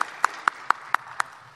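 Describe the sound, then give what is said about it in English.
Hand claps in applause for an event's AV crew: a few sharp, evenly spaced claps, fairly faint and sparse, without voices. “Well, quick applause to the AV folks.”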